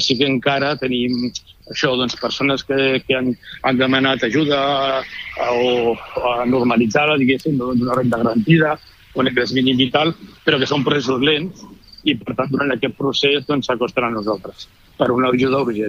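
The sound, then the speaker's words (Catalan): A cricket chirps faintly in the background of a phone interview, beneath nearly continuous talk in Catalan. “li he de preguntar on és perquè sentim un grill de fons”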